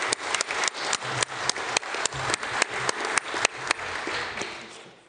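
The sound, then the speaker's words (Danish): Audience applause for a speaker at a debate on biomass: dense, steady clapping with crisp individual claps standing out, continuing throughout and tapering off at the end. “Vi giver lige en hånd til øh, Asger.”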